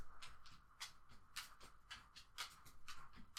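A dog's footsteps pad softly in a quiet, steady rhythm of many light, faint taps.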